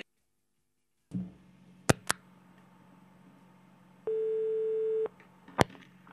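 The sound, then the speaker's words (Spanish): Telephone line sounds on an international call to Canada: a few sharp clicks, then a single steady mid-pitched tone lasting about a second, followed by one more click, all quiet with no talk. “estamos llamando a Canadá.”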